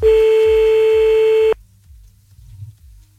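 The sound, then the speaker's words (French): A steady electronic telephone tone on a radio phone call, held at one pitch for about a second and a half before it cuts off abruptly and leaves only faint low pulsing. “C'est parti, on y va, on fait l'appel tout de suite.”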